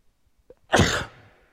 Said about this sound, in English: I have to sneeze to be blessed.